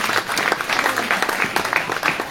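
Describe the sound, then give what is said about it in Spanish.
Applause from a church audience fills the whole stretch, a dense steady patter of many clapping hands with small swells, loud and continuous without talk. “Démele un aplauso al hermano, por valiente.”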